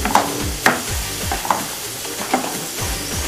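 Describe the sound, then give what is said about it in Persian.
Food sizzles and fries in a pan while a utensil stirs it, producing a few scraping strokes over the steady crackle of hot oil during home cooking. “این دفعه داره سرخ میشه”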